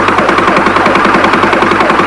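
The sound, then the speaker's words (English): Rapid gunfire blasts up through a bus roof in a fast, even stream of loud cracks over a steady low engine-like hum, continuing without pause throughout. “He's really shooting blind now. Right through the roof.”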